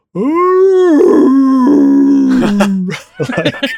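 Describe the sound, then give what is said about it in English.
A human voice imitates a dog's dramatic howl: one loud, drawn-out, groaning wail that holds a fairly steady pitch for nearly three seconds, then breaks into a few short, choppy vocal sounds. “he's so dramatic. Doing a very dramatic howl.”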